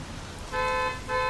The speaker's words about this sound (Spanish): Alguien tocaba la maldita bocina del auto. Unos bocinazos espantosos, persistentes.